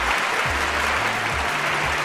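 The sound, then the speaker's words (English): Audience applause: dense, steady clapping from a crowd that holds at an even, loud level from start to finish. “I always can count on you to be here waiting for me with bated breath and with a warm applause and love in your hearts”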